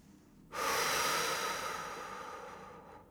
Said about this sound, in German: nimm einen kräftigen Atemzug. Und atme genauso kraftvoll wieder aus.